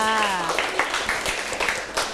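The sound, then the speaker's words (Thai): A classroom applauds a student with scattered, uneven claps. The clapping starts just after a brief spoken voice and keeps going, at a moderate level, to the end. “เยี่ยมมากๆปรบมือให้เพื่อนค่ะ”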